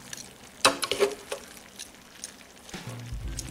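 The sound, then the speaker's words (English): Onions and mushrooms are stirred back into half-cooked steak medallions in a frying pan. A sharp utensil clank is followed by soft scraping and a gentle sizzle, with no talk. “We're going to go ahead and add the onions and mushrooms back in. Okay. Stir that up a little bit.”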